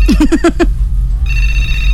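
Electronic telephone tones on an outgoing call: five quick chirping beeps, a short gap, then a steady sustained ringing tone. The tones are loud over a low background hum.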